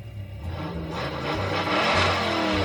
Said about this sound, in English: Rev your engines.